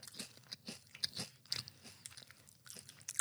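Crunching of airy, thin Lay's potato chips with creamy cheese and basil flavouring, eaten as a few crisp, irregular bites and chews, fairly faint and alone with no talk.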